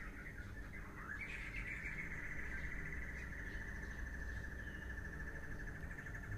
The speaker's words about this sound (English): Can you hear the bird singing?